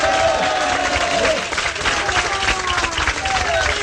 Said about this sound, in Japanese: もう一度拍手をいただきましょう。